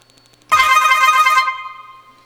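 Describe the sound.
A telephone rings with an incoming call: a single bright electronic trill lasting about a second, which ends abruptly and leaves a faint tail, heard on its own.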